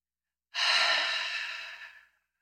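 A single long exhale, a breathy sigh-like rush of air during a guided breathing exercise, lasting about a second and a half and fading gradually at the end.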